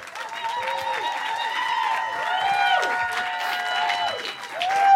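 An audience applauds two comedians as they are introduced. Dense clapping blends with cheering and rising-and-falling whoops that build toward the end.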